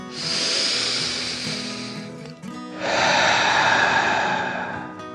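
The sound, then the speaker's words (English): A deep breath drawn in and let out: two long, breathy rushes of air, the inhale and then the exhale, separated by a brief pause. Both are fairly loud and heard alone, with no talking. “With a deep breath in and out.”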